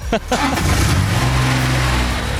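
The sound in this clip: Engine of a small go-kart-like ride-on vehicle with a top speed of about 6 km/h: a steady, low, rumbling hum that thickens after a moment, with a brief voice near the start.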